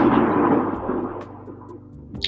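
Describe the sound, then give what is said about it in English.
A deep rumble of thunder starts loud and rolls off gradually over about two seconds, ending with a faint sharp click. “That's a thunder and lightning.”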